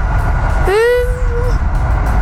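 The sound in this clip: A passenger train hauled by a locomotive in a historic paint scheme sounds one horn blast of about a second. The blast swoops up at the start and then holds steady over a continuous low rumble of the moving train.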